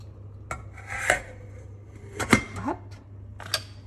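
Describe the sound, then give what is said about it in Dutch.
A metal pot lid is picked up and handled, giving a few light metallic clinks and scrapes spread over a few seconds, fairly faint over a low steady hum. “En dan ga ik de deksel pakken.”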